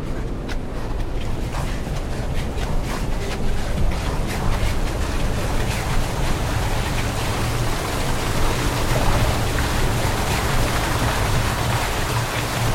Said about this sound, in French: Donc voilà le, l'eau de la source de la Bouillarde, qui se jette dans, une des galeries de la source d'Armentière.